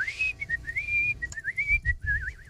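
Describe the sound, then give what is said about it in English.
A person whistles a lively tune alone, with clear, high notes gliding up and down, short trills and quick breaks between phrases. “Oh, I love whistling”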